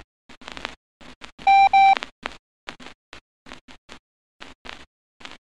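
Morse code beeps send the letters M and O in a code practice drill. Two long, loud, steady mid-pitched tones stand out, surrounded by many shorter, fainter keyed bursts in an uneven rhythm.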